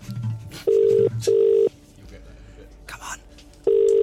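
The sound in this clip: A telephone ringing tone on an outgoing call that goes unanswered: three steady, mid-pitched beeps, the first two close together and the third after a longer gap, with low background noise between them.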